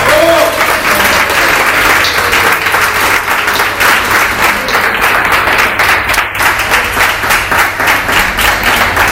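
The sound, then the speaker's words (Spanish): Audience applause at a fundraising celebration for a cultural center, a loud, dense patter of many hands clapping steadily for about nine seconds, with crowd murmur underneath. “Así que creo que nos merecemos todos nosotros un aplauso.”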